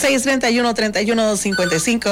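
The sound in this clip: A telephone rings during a radio call-in show with a loud, warbling, melodic tone that repeats in quick, bouncing bursts throughout.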